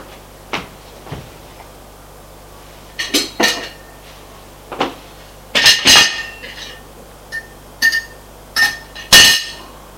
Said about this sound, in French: L'homme revient avec un plateau. Dessus, il y a une assiette, du fromage, du pain et une bouteille de coca. Il dépose sur la table basse.